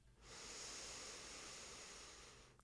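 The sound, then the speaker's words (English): One slow inhale through a single nostril during alternate-nostril breathing: a steady, airy hiss that lasts over two seconds, rising quickly and fading gently at the end, with nothing else heard. “Inhale through the left. Close and exhale through the right. Inhale right.”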